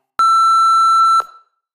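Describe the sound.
An answering machine beep: one loud, steady electronic tone lasting about a second, heard alone and ending with a brief fade.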